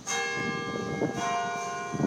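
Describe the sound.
Cathedral bell ringing in a city street with brick paving: a few deep strikes about a second apart, each leaving a rich, sustained metallic hum that overlaps the next.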